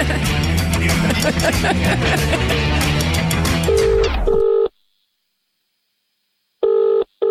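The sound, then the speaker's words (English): Telephone ringback tone as a call is placed, entering as a steady electronic tone over the tail of music, then after a pause returning as a short double-burst ring pattern, with no speech. “Right, OK, let's go do a phone call”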